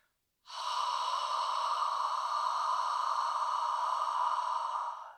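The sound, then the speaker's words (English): A long, even, breathy exhalation shaped on an H sound, used as a vocal exercise in place of a pressured hiss, starts abruptly and holds soft and steady for about four and a half seconds. “So instead, we're going to use an H and make a really, really breathy tone, like this.”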